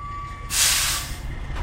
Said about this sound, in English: And we're looking at a big black tractor-trailer truck.